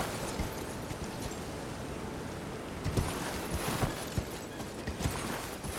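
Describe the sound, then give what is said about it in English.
Horse hooves clip-clopping in a video game: soft, dull hoof taps in a loose rhythm under a steady broad hiss, faint at first and more distinct in the second half. “Okay, and then here we get off the horse. Why isn't the game letting me get off the horse?”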